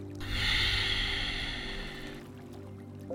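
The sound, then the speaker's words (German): A long airy breath during a guided meditation exercise, a soft rushing hiss that swells and holds for about two seconds, then eases into quiet; no talking. “Einatmen, ausatmen. Ich merke, wie sehr es mir hilft, mich auf meine Atmung zu konzentrieren.”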